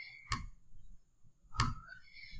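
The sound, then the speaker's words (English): Two sharp computer mouse clicks, each a crisp, bright snap, spaced a little over a second apart against a quiet background. “I clicked on it.”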